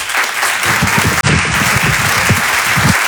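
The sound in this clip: Audience applause at a live comedy club show in a theatre, loud dense clapping that holds steady for the whole stretch with no talk over it.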